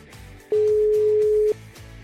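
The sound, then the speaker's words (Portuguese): A telephone ringback tone from an outgoing call: one steady, mid-pitched tone lasting about a second, clearly louder than the low, continuous background sound around it. “Aí, vamos ligar. Tá chamando.”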